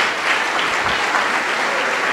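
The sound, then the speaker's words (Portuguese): Loud applause fills a church service as the audience claps while people are called forward. It is thick and unbroken from start to finish. “Vamos aplaudir ao Senhor Jesus por cada vida que chegar.”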